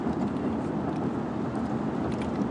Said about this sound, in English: I probably shouldn't start to make a recording in the middle of driving. But once I get on the next freeway, then I just drive and drive.